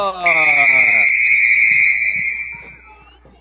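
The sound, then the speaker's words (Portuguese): A referee's whistle starts a football match with one long, steady, high-pitched blast that fades over about two seconds, after a voice at the very start. “Apita o árbitro!”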